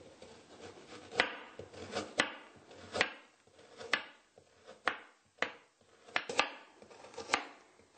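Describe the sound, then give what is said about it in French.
Knife slicing carrots into thin rounds, a series of crisp, irregularly spaced cuts with faint scraping between them, fairly quiet and with no talk. “Alors, commençons avec les carottes. Nous allons les trancher, les découper en tranches assez minces pour en faciliter la cuisson.”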